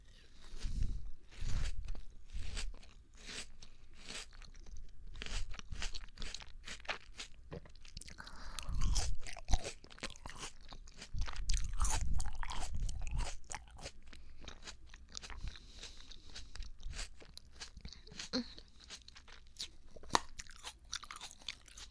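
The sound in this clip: Someone chews a crunchy small melon, producing many crisp, uneven crunches and soft chewing noises in irregular bursts, fairly faint and without talk.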